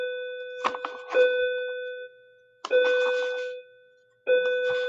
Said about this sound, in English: While that bell rings, give me a second to collect myself here.